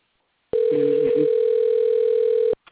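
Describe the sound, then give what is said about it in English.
A steady telephone dial tone holds one unchanging pitch for about two seconds and then cuts off. A faint voice briefly sounds beneath it early on. “I'm going to dial a number. Here we go.”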